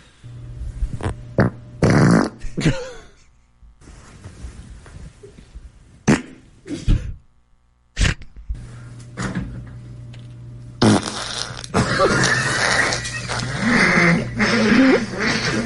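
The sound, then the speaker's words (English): Farts from someone with Covid-19 play in rapid succession: many short, loud, sputtering blasts, with quieter gaps between them. A longer, rougher stretch of flatulence runs at the end. “The first fart of each day is usually the heaviest, I've noticed. I like day two a lot. Yeah. Well, let's hear them again.”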